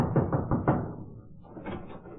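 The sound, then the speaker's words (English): Four quick, evenly spaced knocks land on an office door, dull and moderately loud, followed by a quieter stretch of muffled sound. “I went up to an office one day and knocked at the door.”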